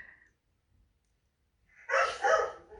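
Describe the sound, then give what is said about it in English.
Dogs bark in the background at home. After near silence, a couple of quick barks sound close together near the end. “I apologize for the noise in the background. We have dogs.”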